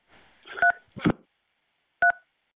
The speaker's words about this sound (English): This caller dialed the local number in Covington.